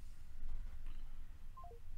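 Telephone keypad tones sound as buttons are pressed to call back: a quick run of short, clean beeps near the end that step downward in pitch over a low, steady background noise.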